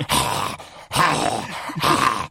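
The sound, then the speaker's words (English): A voice imitates overdramatic heavy breathing: three long, loud, breathy rasping breaths, each broken off by a short pause, with no talk. “It's people who breathe in this kind of... slightly overdramatic.”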